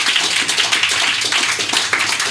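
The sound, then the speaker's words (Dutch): Audience applause for a guest at the close of a live show, a brief burst of dense, steady clapping from many hands at an even, fairly loud level. “Mag ik nogmaals een applaus voor Juliaan Galavasi.”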